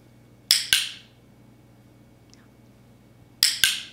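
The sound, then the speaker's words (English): A dog-training clicker snaps four times in two quick double-click pairs, sharp bright clicks separated by a few seconds of near silence. “That was the sound of a clicker.”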